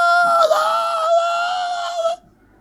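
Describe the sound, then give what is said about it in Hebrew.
A woman screams in a hospital ward during a difficult labour, one loud, sustained, high-pitched cry that holds for about two seconds, wavers slightly and then cuts off into near silence. “קח אתכם למחלקה אחת, תשבעו שם, צעקות,”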